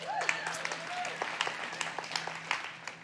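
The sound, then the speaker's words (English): Audience applause at a church service: many scattered, crisp claps from a crowd, moderately loud and steady, with a voice heard over them at the start. “So you put your hands together for them.”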